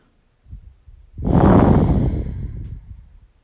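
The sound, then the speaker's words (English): A single deep breath, drawn as one long, airy rush of about two seconds that swells quickly and then fades slowly, preceded by a faint, brief breathy sound. “That calls for a deep breath right there. Let's take a deep breath on that.”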